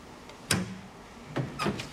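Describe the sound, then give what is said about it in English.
A nun opens a door fitted with a speaking grill, making a sharp latch clack and then two more quieter knocking clicks against a low hum. “The nun opens the door and he goes in.”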